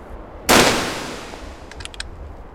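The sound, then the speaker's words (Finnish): A Nagant rifle fires a single loud, sharp crack at a target 150 metres away, followed by a long tail that fades steadily and then a few faint, brief ticks. “Kohteeseen on 150 metriä. Tämä Nagant ampuu aina ylös, joten tähtään kohteen alaosaan.”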